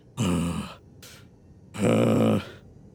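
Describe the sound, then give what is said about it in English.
A voice imitates deep breathing with two long, rough, drawn-out breaths and a brief, fainter one between them, loud and alone with no other talk. “Solinar is just like deep breathing, just like,”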